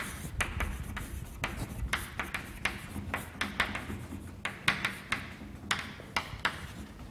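Handwriting during a physics lecture makes a faint, steady run of many short scratching strokes and light taps over a soft background hiss, with no talk.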